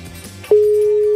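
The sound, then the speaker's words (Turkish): A telephone ringback tone from an outgoing call starts abruptly after a short quiet stretch, then holds one steady, fairly loud, unchanging pitch to the end. “iki kere daha çaldırır kapatırım.”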